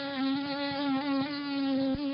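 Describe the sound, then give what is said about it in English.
A nuisance mosquito that does not carry human disease parasites buzzes with its wingbeats: a steady, high-pitched whining hum with slight wavering, heard alone. “That's the sound of a nuisance mosquito, one that doesn't carry human disease-causing parasites.”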